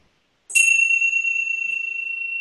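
A meditation bell is struck once, giving a bright, high, clear ping that rings on as a steady sustained tone and fades only slightly, alone without talk.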